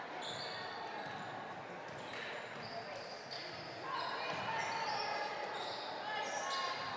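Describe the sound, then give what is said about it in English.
A basketball is dribbled on the court during the fourth period of a basketball game, with faint bounces buried under steady crowd noise and people talking. “still just dribbling around right now to protect his lead”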